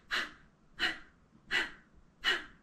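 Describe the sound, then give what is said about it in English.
Breath of fire from a Kundalini yoga breathing practice: four sharp, forceful exhales through the nose come in an even rhythm, each a short, breathy puff with quiet gaps between. “we're going to come into the fire part of our practice, which is called breath of fire. So this breath, it, it comes out of the nose. It's like you're blowing a candle out with your nose.”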